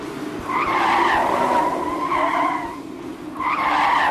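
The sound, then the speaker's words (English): A car drifts with its tires skidding, a loud sustained squeal with a brief dip before it swells again, rough and continuous with no voices. “Smart move drifting like that.”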